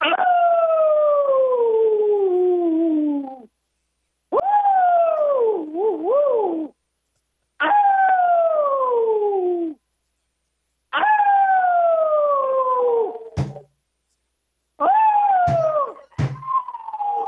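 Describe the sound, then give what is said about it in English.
A dog howls five times. Each howl is long and loud, with a tone that slides downward in pitch, and short silences separate them. A few sharp clicks break into the later howls. “That's the dog. That's the dog.”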